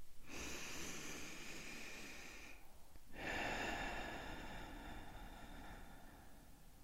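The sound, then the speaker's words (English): A deep breath drawn in slowly for a few seconds, then after a brief pause a long, airy breath out, both soft and steady. “Let's begin our journey with a deep breath in and a deep breath out.”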